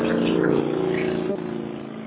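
A motorcycle driving back and forth outside: a steady, low engine drone that slowly fades over two seconds.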